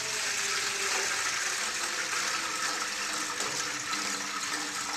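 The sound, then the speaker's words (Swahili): Water poured into a cooking pot for boiling sweet potatoes: a steady, rushing splash of flowing water that runs unbroken from start to finish, with no talking. “Sasa unatia maji kwenye sufuria kiasi tu.”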